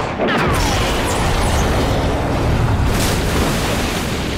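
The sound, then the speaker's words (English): A movie explosion as a shot shark is blown apart: a loud, dense, continuous roar and rumble that holds steady for about four seconds. “The shot fires, and kaboom! The shark explodes in a very dramatic fashion.”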